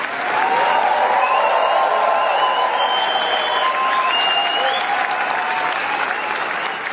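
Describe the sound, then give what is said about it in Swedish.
Sustained applause from a standing ovation for actress Léa Seydoux after the Gentle Monster premiere at the Cannes film festival: dense, steady clapping that stays loud and even throughout. “så här lät det när skådespelaren Lea Seydoux fick ta emot stående ovationer för filmen Gentle Monster efter att den haft premiär under den pågående filmfestivalen i Cannes”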